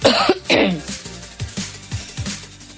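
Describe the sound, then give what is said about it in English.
Coughing, with a couple of harsh, rough bursts at the start followed by softer throaty sounds and a faint voice. “Hold that cough.”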